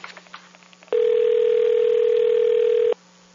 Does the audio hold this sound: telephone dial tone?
yes

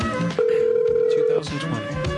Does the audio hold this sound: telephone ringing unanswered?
yes

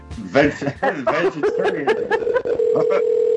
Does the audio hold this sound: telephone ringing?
yes

